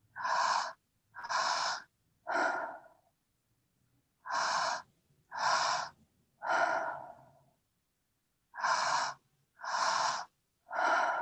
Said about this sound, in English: So we can feel the belly move, feel the chest move, and then on that exhale, just another few breaths like this.